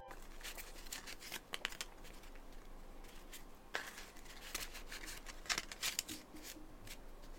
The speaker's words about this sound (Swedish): Så nu känner jag mig redo att dra korten. Så då börjar jag med mina änglakort.